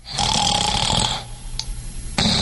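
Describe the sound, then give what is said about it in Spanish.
A person snoring: a long, loud, rasping snore, then a quieter pause, then the start of another snore. “Si roncar fuera un deporte olímpico, yo ya tendría medalla de oro.”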